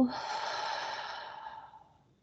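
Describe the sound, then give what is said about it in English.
A long, breathy exhale during a guided deep-breathing exercise, starting at moderate loudness and tapering off gradually into silence. “Take one more deep breath in through the nose. Hold that at the top. And then let that go.”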